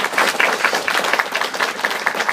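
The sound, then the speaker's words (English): Round of applause from a church audience: dense, steady clapping from many hands, continuing evenly through the whole clip. “Can we put a round of applause?”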